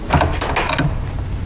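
A door opens as someone walks into a room, giving a few short clattering, mechanical knocks and rattles in quick succession, without talk.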